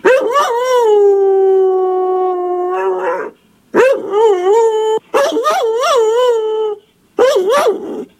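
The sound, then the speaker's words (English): A beagle howling: one long, drawn-out howl, then three shorter wavering howls with brief pauses between them, loud and alone. “Could that be some kind of a beagle? Correct.”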